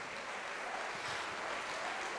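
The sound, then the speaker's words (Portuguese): Applause from a church audience during a worship service: dense, steady clapping that holds at an even level for the whole stretch, with no voices standing out. “Vamos aplaudir mais ao Senhor.”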